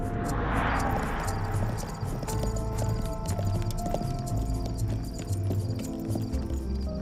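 Hooves of a horse-drawn carriage clip-clopping in a steady, continuous rhythm of many hoof strikes that lasts throughout, at an even, moderate loudness.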